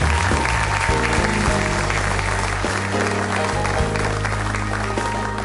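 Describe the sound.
Applause for an honoree at a church service honouring fathers, an audience clapping steadily and loudly. It is a dense, continuous patter that holds an even level for several seconds.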